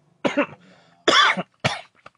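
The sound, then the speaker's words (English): Coughing after food caught in the throat: three harsh, separate coughs, each a short rough burst, followed by a few faint small sounds. “My food caught in my throat.”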